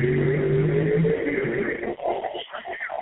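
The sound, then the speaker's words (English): A car goes down the road with a steady low engine hum that holds for about a second, then thins into a rougher, uneven rumble. “I just heard a car go down, and I had to stop. Because it sure enough sounded like it”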